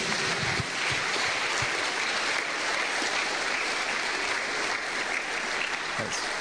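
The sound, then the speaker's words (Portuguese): A church audience claps for Jesus in a loud, dense, continuous patter of many hands that holds steady from start to finish. “Your hands together for Jesus. Palmas para Jesus.”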